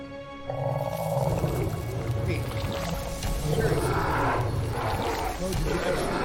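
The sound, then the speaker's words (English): Lions roaring as game ambience during a tabletop role-playing session: a loud, dense, continuous rumbling roar that holds steady for the whole stretch without a break. “The lions are roaring.”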